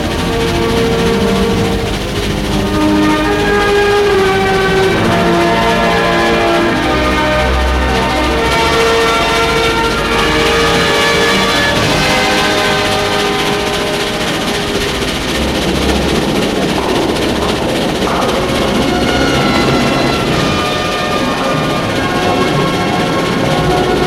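Crowded, busy train station with trains: a dense, continuous wash of loud noise with steady ringing bell-like tones running throughout.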